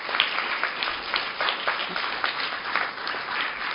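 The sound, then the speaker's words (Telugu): An audience at a school meditation session claps in thanks. Many hands beat in a dense, steady patter of moderate loudness with no voices over it. “సరే, అక్కకి thanks చెప్తారా? చప్పట్లు కొట్టండి అక్క గురించి.”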